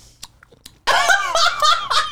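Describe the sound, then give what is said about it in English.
A voice imitates someone crunching popcorn while watching TV on a couch: a few soft clicks, then a loud burst of rapid crunchy mouth noises mixed with voiced, giggly sounds. “And she was eating popcorn and she was doing like.”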